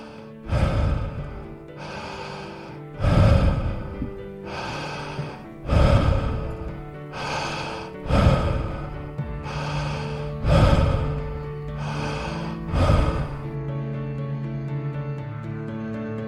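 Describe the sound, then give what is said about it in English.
Connected breathing with no pause between in-breath and out-breath, about six cycles in an even, slow rhythm. Each strong, airy breath is followed by a softer one, over a quiet sustained tonal drone. “With this awareness, begin to connect your breath now. Just in a very gentle way.”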